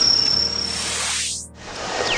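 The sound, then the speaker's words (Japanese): Bell crickets chirp at an evening festival, a thin, high, steady trill at the start that sinks under broad hissing noise, with faint chirps coming back near the end. “いい感じで鈴虫が鳴いてます。秋の知らせですね。”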